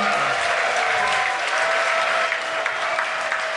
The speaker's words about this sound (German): Ist mir jetzt aber nicht ganz klar, warum die Leute hier klatschen.